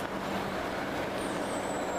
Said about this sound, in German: Da hinten kommt ein Bus. Der sieht aus wie ein HVV-Bus.